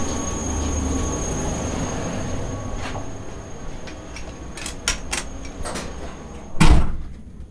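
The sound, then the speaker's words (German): Inside a moving Class 146 TRAXX electric locomotive, a steady rumbling drone runs throughout, broken by a few sharp clicks and knocks and a heavy door-like clunk near the end. “So, jetzt laufen wir hier gerade durch die Lok auf den anderen Führerstand.”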